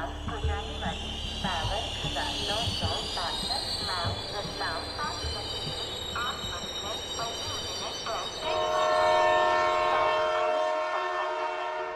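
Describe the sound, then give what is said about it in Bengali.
A train pulling into a station, its steady rumble laced with squealing wheel tones, then a sustained tonal blare rising over the noise near the end. “তারপর train এলো হুড়মুড়িয়ে সে ছুটল”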